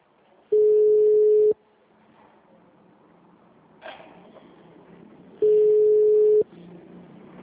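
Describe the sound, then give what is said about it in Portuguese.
Ringback tone of a telephone call waiting to be answered: two steady, mid-pitched one-second tones separated by a few seconds of quiet line hiss, with a brief click in between. “Ai, Cláudio, me atenda.”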